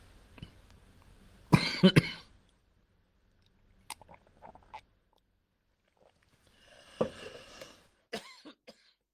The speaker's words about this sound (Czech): A pardon, trošku se napiju.